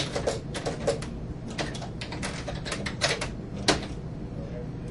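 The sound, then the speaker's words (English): Typing on a computer keyboard while entering code: a quick, irregular run of light clicking keystrokes. “So I'm going to come down here. I'm going to type O equals ostrich.”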